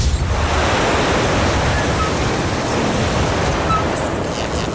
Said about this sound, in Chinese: 太大了， 太大了， 对，这风太大了。